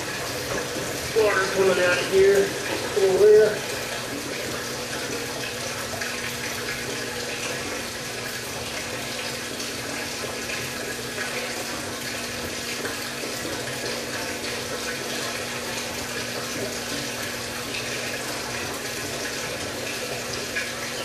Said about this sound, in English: Okay, draining.